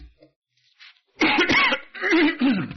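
A person clears their throat and coughs mid-sermon. A few faint small sounds come first, then two loud, rasping bursts of throat clearing and coughing, with no speech.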